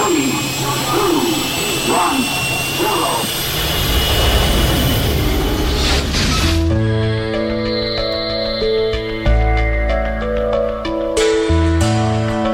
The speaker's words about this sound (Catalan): Som a punt d'enlairar-nos amb la nau La Fall Lluna.